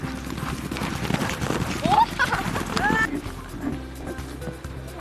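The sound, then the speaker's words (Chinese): Hooves of a running horse clip-clopping in a rapid, steady rhythm, with a couple of short, high rising calls heard over the hoofbeats. “马儿跑起来之后。爽！”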